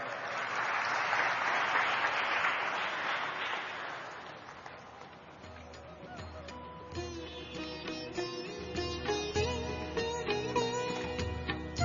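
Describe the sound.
An audience applauds to welcome a speaker at an evening talk. The clapping is dense and steady for about five seconds, then thins out as a voice begins speaking.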